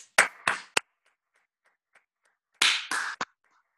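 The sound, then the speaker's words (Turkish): Six sharp, crisp hand claps arrive in two bursts of three, each burst quick and loud, with a stretch of near-silence between the groups. “önce bir alkışlayalım mı abi? Ama bu alkış sesi gitmiyor da gene deneyelim hadi.”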